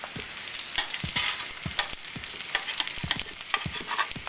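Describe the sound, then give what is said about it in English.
Egg rolls sizzling as they fry in a pan, browned on both sides. A steady crackling hiss is broken by many sharp pops and light taps. “Let them get brown on this side. It doesn't take long at all. My egg rolls are ready. They're browned on both sides.”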